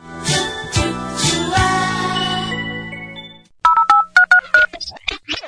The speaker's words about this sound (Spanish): Ahora, en la pausa, coge el teléfono móvil y llámanos.